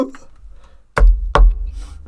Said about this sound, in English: knock on composite. Yeah. Well, there's wood in there somewhere.